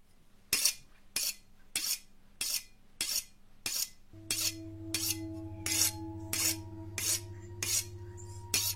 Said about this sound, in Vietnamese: Nó đứng lên lặng lẽ cầm lấy con dao bầu sắc nhọn, bóng loáng. Nó mài con dao vào cạnh bàn, âm thanh nghe rùng rợn.